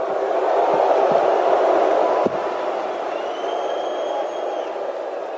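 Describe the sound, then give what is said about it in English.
Sold-out crowd at the Toronto stop of the Conor McGregor and Floyd Mayweather press tour, a steady, dense roar of cheering and voices that holds at a fairly even level throughout. “So what you just heard was the Toronto stop of the Conor McGregor-Floyd Mayweather press tour. As you could hear, the fans in attendance there, and it was a sold-out crowd.”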